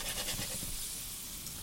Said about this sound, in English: I would sear them for a couple of minutes. And so as they're cooking, you can just lift them, and you can see that you're getting this really beautiful golden brown.